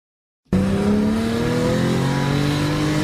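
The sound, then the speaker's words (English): A Porsche 911 sports car engine roars in abruptly after a moment of silence. It holds a loud, steady, throaty drone with strong low harmonics and no voices. “That's what drivers expect a Porsche 911 to sound like.”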